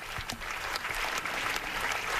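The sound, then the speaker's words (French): Applause from an assembly of dozens of people greeting Pope Leo XIV in a packed synod hall, a steady, dense wash of clapping that stays fairly soft and even throughout. “C'est donc le pape Léon XIV, applaudi en ce moment par l'Assemblée, des dizaines et des dizaines de personnes dans une salle du synode comble”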